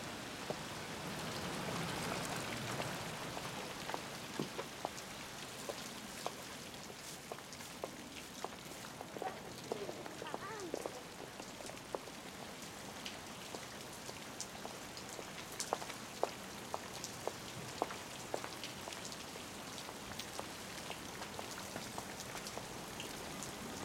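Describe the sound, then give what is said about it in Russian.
Heavy rain pouring down outdoors: a steady, dense hiss of rainfall with many scattered drop taps throughout, fairly faint and continuous with no other sounds. “На улице ливень.”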